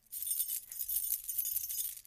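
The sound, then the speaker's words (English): Keys jangling in a bright, continuous metallic rattle that keeps up for about two seconds, with steady shimmering clinks and no voices. “We have the actual keys used to unlock the PlayStation 3.”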